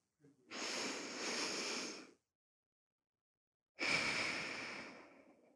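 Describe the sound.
A person takes a deep breath: two long, airy breaths separated by a stretch of silence, the second starting stronger and gradually fading out.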